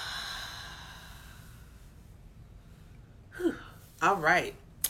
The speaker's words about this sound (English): And let's do one more big inhale through the nose. And let's exhale out with sound.